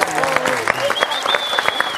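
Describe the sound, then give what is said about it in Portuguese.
A round of applause, heard as dense, rapid clapping from a group that lasts about two seconds, with voices calling out over the clapping. “Uma salva de palmas. Parabéns.”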